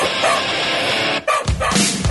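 A dog barks a few times in short, sharp bursts over a dense, noisy background that stays loud throughout.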